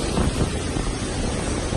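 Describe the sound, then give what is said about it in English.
Roaring wind from Hurricane Dorian pounding the Bahamas, a dense, loud, unbroken rush of storm noise that lasts the whole brief moment. “That's the sound of Hurricane Dorian as it continues to pound the Bahamas.”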